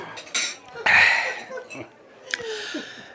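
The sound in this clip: Coffee cups clink while people drink coffee, a few light, bright ceramic taps mixed in with voices.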